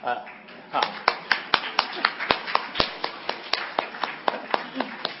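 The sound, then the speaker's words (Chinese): An audience claps for standing mothers at a Mother's Day church service. Many crisp, evenly spaced claps form a steady rhythm, with a voice heard briefly at the start. “母亲们都站起来，让我们替你鼓掌好不好？”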